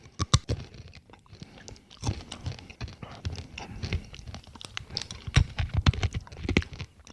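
Crunchy roasted chickpeas, crisp outside and mealy inside, being chewed: many irregular, crackling crunches mixed with softer mouth noises, loud at times and quieter between bites.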